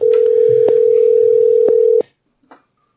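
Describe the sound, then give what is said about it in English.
A steady telephone dial tone as a call is being placed holds for about two seconds with a few faint clicks, then cuts off. A brief soft click follows. “so I'm going to call him real quick. That's right. We're doing lots of phone calls now, folks.”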